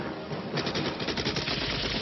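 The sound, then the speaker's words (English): Rapid automatic gunfire from a movie action scene, with two gunmen shooting at a man on a motorcycle. It comes as a loud, dense rattle of many quick shots, starting after a brief lower rumble. “Wow, look at the gunfire.”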